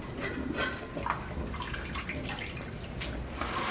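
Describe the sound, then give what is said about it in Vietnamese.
Water poured off blanched food into a colander makes a continuous, fairly quiet splashing rush with small irregular spatters throughout. “Chúng ta sẽ đổ ra như rổ thế này, để cho nó nguội.”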